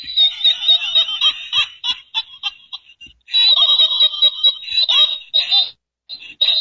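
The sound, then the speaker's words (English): A rubber duck squeaks in rapid, high-pitched bursts, many of them in two fast runs split by a brief pause, with a few more squeaks at the end. “Rubber ducky.”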